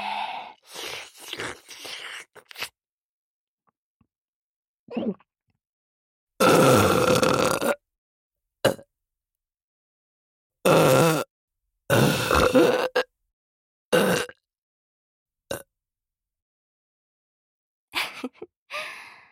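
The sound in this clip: Burping and throaty gulps come in many short, irregular bursts, some loud and drawn out, others brief, with silent gaps between them and no talk.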